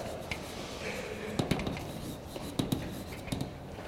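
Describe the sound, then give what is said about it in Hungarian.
Examples are drawn on a board, with quiet scratchy strokes broken by a few sharp taps in pairs. “Két példát rajzolok fel.”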